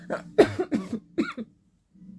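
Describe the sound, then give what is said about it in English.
A man coughs in a rough, hacking run of several short bursts, then falls quiet. “sorry. Again, I can't promise I won't be coughing throughout this.”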